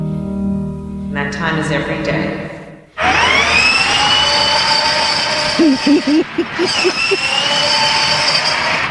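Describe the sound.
A vehicle driving away after a workday bursts into a loud, harsh roar of engine and rattling noise that fluctuates, preceded by a few seconds of a tonal, voice-like sound.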